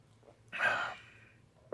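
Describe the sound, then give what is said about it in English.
One deep breath is taken, a faint airy rush that swells quickly and then tails off slowly, heard on its own in near silence. “Let's take a good deep breath with that.”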